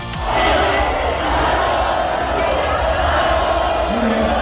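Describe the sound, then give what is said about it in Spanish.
A crowd at a Formula 1 circuit chanting for Fernando Alonso to stay another year: a loud, continuous roar of many voices that holds steady without clear breaks. “Mira, esta es la imagen que se producía hace unos instantes con todo el público que había ido a ver la jornada de hoy, diciéndole a Fernando Alonso que siga un año más en la Fórmula 1.”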